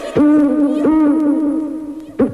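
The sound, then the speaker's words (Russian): A voice imitates an eagle owl's hooting with a few drawn-out, hollow hoo calls at mid pitch, loud and alone, with the last call cut short. “Тут филин заухал.”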